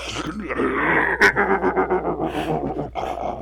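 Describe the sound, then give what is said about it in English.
Roar of an animatronic T-Rex dinosaur: a loud, drawn-out growling roar with a sharp burst early on, then a throbbing series of pulses that fade before a shorter final snarl. “You hear a flash of carnival sounds and then the roar of dinosaurs as the animatronic T-Rex”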